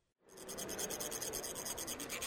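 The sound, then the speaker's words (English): Steady, rhythmic metallic rasping as Tibetan monks release colored sand from metal funnels onto a sand mandala at a convention center in New Orleans; many even scratchy pulses continue without talk after a brief silent start. “That scratching sound is sand being released from metal funnels to create a mandala.”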